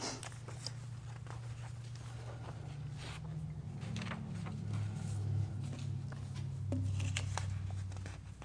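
Bible pages rustle as they are turned during a sermon, a soft, continuous papery patter of many small flicks and swishes over a low, steady hum, with no voices.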